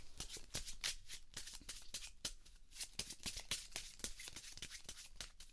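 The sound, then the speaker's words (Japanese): Playing cards being shuffled by hand, heard as many rapid, soft papery flicks and clicks that run steadily throughout, faint and with no talking. “とりあえずまあ適当にこうやってシャッフルしまして”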